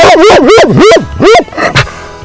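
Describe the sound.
A female dog barks and yowls in a loud, rapid string of vocalizations, each call wavering up and down in pitch like a howl, ending in a last short yip and then a faint, quieter tail.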